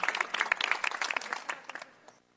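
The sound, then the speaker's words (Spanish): Applause: a dense burst of many claps that thins out and fades to quiet over about two seconds. “Bravo. Un aplauso hasta el cielo para San Agustín”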